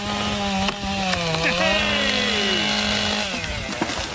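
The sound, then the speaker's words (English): A chainsaw cuts down trees, its engine holding a loud, continuous buzzing whine with only slight shifts in pitch, heard alone without talk. “You too can go to Lidl on Thursdays and buy a chainsaw.”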